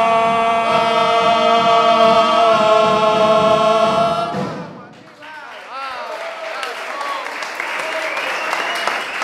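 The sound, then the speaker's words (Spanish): A sustained musical chord rings for about four seconds, fades, and gives way to audience applause on a radio show staged before a live audience. The clapping is steady and dense and continues to the end. “Fuertes aplausos para la macanuda en el aire de Radionauta 106.3, el primer tablado radiofónico de la historia argentina.”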